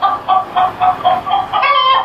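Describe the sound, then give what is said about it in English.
A chicken clucks in an elevator shaft, on top of a stalled elevator car. It gives a quick, even run of short clucks, then a longer, drawn-out call at the end. “And there's a chicken up here. I think it did something to the elevator because it won't go. The chicken. I guess it was a chicken because it was maybe like pecking around.”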